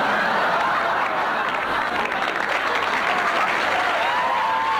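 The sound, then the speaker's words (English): An audience going wild with dense, sustained applause. It stays loud and steady from start to finish without a break. “The audience going wild.”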